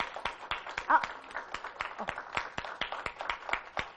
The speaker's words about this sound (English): So I want to thank you for being such a good audience. Give yourself a hand.